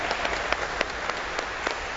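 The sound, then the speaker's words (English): Applause from a church audience welcoming new members during a service: a few scattered claps rise from a steady low background, fairly faint. “So we welcome them to the Christian community ahead of time. Let's give them an applause, you know.”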